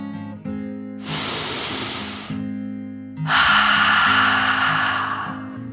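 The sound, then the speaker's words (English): A deep breath, drawn in slowly and then let out, performed as a dragon's breath in a story after a snowfall. Two long, soft rushes of air, the exhale fuller and louder, sit over a steady, quiet musical backing. “took a deep dragon breath, in and out.”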